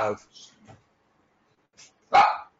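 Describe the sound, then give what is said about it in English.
Dog barks ring out in a room where several dogs are kept: a few short barks, then a louder, longer bark near the end, with quiet gaps between them. “We've got dogs here, folks, and so if they bark, forgive me, or forgive them.”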